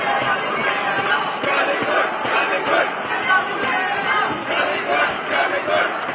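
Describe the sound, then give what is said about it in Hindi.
Indian fans in a stadium chant loudly in unison during a women's doubles badminton match against a Chinese pair, the massed voices surging and dipping in a repeated rhythmic pattern over a constant crowd roar. “Bar bar stadium Pullela Pullela jolly good के नारों से गूंजता।”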